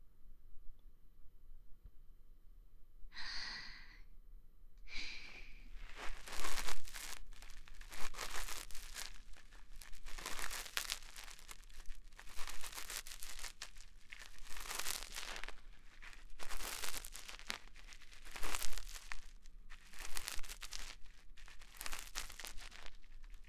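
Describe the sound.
Light ear cleaning with an ear pick makes soft crackling, scraping rustles, with many irregular quiet bursts of crinkly friction close together.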